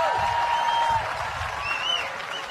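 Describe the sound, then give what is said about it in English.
Applause from an audience cheering on the Red Flag dancers at an evening event in Darwin, on Larrakia country: a steady, dense wash of clapping that holds at a fairly even level for the whole stretch. “Give it up for the red flag dancers.”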